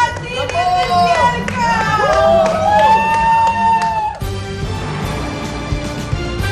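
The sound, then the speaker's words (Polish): A welcoming crowd cheers a Paralympic medalist at Warsaw airport, with excited overlapping voices and swooping whoops that rise and fall in pitch. It changes abruptly to a rougher crowd noise after about four seconds. “Gorące powitanie medalistki paraolimpijskiej na warszawskim lotnisku.”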